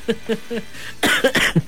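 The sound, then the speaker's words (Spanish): A person coughs in a quick cluster of several harsh, breathy coughs near the end, after a few short voiced sounds. “hasta me da tos, oiga usted.”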